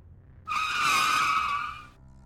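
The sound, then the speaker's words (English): Tires squeal as a grey car brakes hard at the entrance of a driveway: one loud, sustained screech of about a second and a half that starts abruptly, holds steady, then fades out, heard alone. “the grey car raced to the entrance of the driveway and braked hard, causing the tires to squeal in agony”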